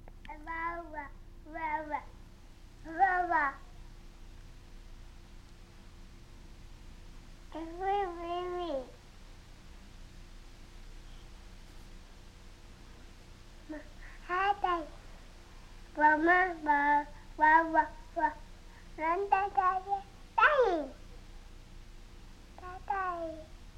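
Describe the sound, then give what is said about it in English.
A toddler about a year and a half old babbling: many short bursts of high, sing-song syllables separated by pauses, some with gliding rises and falls in pitch, alone over a quiet background. “Here's your daughter babbling at a year and a half.”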